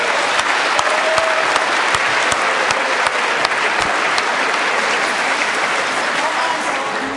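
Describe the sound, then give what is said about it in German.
Sustained audience applause for Team Darmstadt at a quiz event, a dense and steady wash of loud clapping that runs the whole way through without a break. “Applaus für Darmstadt.”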